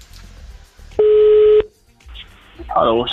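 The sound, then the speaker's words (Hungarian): A telephone tone sounds as a radio host places a call to the day's listener: one steady, buzzing tone lasting just over half a second, set between quieter stretches, with a voice starting up afterward. “Hívjuk már is a nap hallgatóját.”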